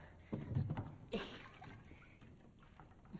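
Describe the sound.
Kerosene is poured from a container, giving a faint trickling slosh in a couple of short bursts near the start before fading to a quiet hiss.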